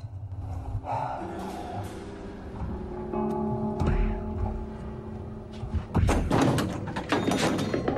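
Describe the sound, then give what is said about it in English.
A person stumbling heavily on the way to a kitchen after switching off a lamp, heard as a cluster of loud thumps and scuffing knocks near the end, after a quieter stretch with steady tones. “He switches off a lamp, then stumbles heavily as he goes to the kitchen.”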